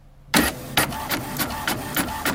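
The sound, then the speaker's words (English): A household printer running: a rapid train of sharp mechanical bursts, about a third of a second apart, over a steady whirring hum. It plays loud and alone. “Everyone has this in their house. Most people do. It's a printer. That's a printer.”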